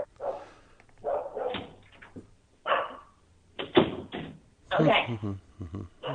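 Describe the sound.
A dog barks in bursts, with several sharp barks, yips and some whimpering, fairly loud and mixed with a person talking between them.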